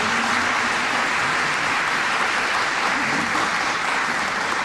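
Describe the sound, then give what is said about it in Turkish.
Sustained applause for Turkish folk music saz players, a steady, even wash of many hands clapping at constant loudness for several seconds, with no voices. “Türk halk müziği, saz sanatçılarını öncelikle gönüller dolusu alkışlıyoruz.”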